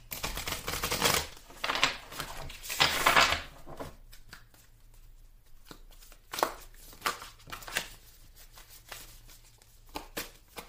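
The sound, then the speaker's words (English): Splitting and handling a deck of tarot cards: a few crisp, rapid riffling bursts over the first four seconds, followed by softer scattered flicks and taps. No voices are heard. “when I split the deck. Let me go ahead and see what card comes out now.”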